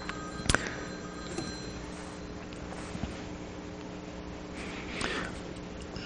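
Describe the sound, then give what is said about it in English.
A mobile phone rings faintly, a thin electronic tone sounding through a quiet room tone, with a few soft knocks and clicks around it. “pardon me, I think my phone's ringing.”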